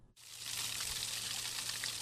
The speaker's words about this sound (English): Water coming out of a temperate rainforest